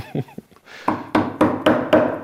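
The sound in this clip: Wood splitting while letters are carved into it: five sharp, evenly spaced knocking thunks, loud and hollow, preceded by a few fainter, softer sounds.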